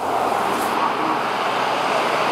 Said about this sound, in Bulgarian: интензивен трафик, тапи и огромен наплив от автомобили към големите градове.